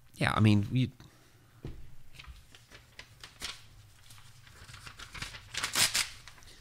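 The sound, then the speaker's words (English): A sheet of paper rustles and crinkles as someone handles it, with a series of soft, crisp bursts after a brief stretch of talking. “So you have, let me use a piece of paper.”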